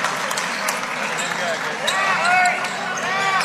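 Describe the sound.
A basketball dribbled on a court before a free throw in a basketball game, a few sharp bounces heard under a commentator talking.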